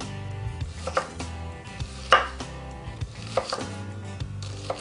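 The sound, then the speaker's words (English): A knife chops rapidly through a sliced onion on a board, mincing it finely. Many quick, crisp taps come in an uneven rhythm, some louder than others, with no talking. “So we got all our slices in the onion. Now we're just gonna run our knife through.”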